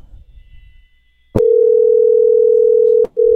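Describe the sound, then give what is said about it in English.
A steady, continuous telephone dial tone heard while a number is being dialed. It starts with a sharp click, holds loud and even, and breaks off briefly near the end with another click before returning. “Dialing a number.”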